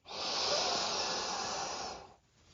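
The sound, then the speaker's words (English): A single long, deep breath taken during a guided relaxation exercise: a steady, airy rush of air that holds an even level for about two seconds, then fades into near silence. “Another deep breath in. And a long exhale out.”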